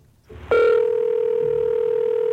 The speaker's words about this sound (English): So because I had some warning that Bob was trying to get in touch with me, I was able to start recording the very first phone call I ever had with him.